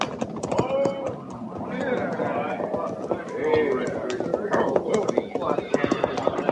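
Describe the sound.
Hoofbeats of a rider's horse coming in to a cavalry patrol: a rapid, uneven run of many clip-clops, steady and fairly loud throughout, with men's voices mixed in.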